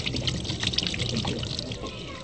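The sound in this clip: Running water pours at an outdoor family sink in a tiny courtyard as a woman rinses her face and arms before prayer, making a steady, fairly loud splashing wash that lasts throughout.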